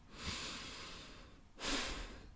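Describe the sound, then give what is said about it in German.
A deep breath from an agitated speaker: a long, airy inhale is followed after a brief pause by a louder, forceful exhale, faint and alone. “Mich regt's echt auf. Ich muss kurz einmal atmen.”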